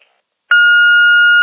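An answering machine beeps after a brief silence: a single loud, steady electronic tone that holds at one pitch until the end.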